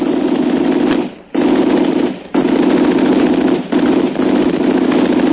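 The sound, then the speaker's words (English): Gunfire from a gun rattles loudly in long, rapid bursts broken by a few short pauses, with no voices. “He fired too high.”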